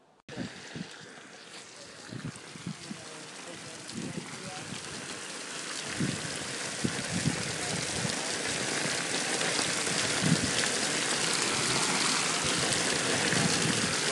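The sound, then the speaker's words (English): Water from an outdoor iron water feature splashes and trickles in a steady patter that grows louder and denser as it goes on. “This is the sound of an outdoor water feature. It is made out of iron.”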